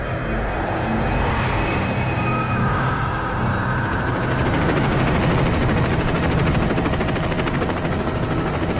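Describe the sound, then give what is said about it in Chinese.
Propellers of a transport plane spinning rapidly at a military airfield, a loud, steady droning roar with a thin high whine running through it, unchanging for the whole stretch and with no voices. “重庆军用机场里，运输机的螺旋桨在急速地旋转着。”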